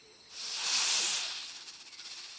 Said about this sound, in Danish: Uha, en slange.